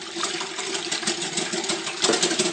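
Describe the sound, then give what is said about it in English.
Milk is whisked fast in a bowl with beaten egg for a mini birthday cake batter, a steady, busy rattling churn with rapid pulses running throughout and no talk. “Next thing we're going to do is get the milk in. And we'll give that a fast whisk.”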